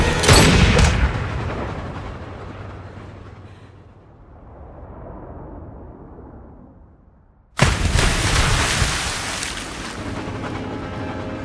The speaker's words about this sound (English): Take the shot. I say take the shot. I can't, I'm aiming at Bond. Take the bloody shot.